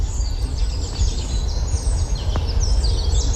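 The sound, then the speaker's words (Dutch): Finches babbling their early spring song in Heemstede, heard as faint, scattered high chirps and twitters over a steady low rumble of background noise. “En dus is hij er als de kippen bij om in Heemstede de eerste brabbelende vinken vast te leggen die zich bekwamen in de lentezang.”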